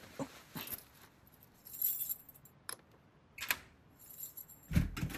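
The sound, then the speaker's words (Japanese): Keys jangle faintly at a door on arriving home, a few short metallic jingles and clinks spaced irregularly against near silence. “待って、鍵。”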